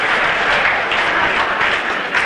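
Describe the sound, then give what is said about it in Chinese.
A stadium crowd stands, cheering and applauding after a Chinese player's final victory at a table tennis match. The roar is loud, dense and continuous throughout, with no breaks. “这是全场观众再次起立，为我们中国队员取得最后的胜利而欢呼。”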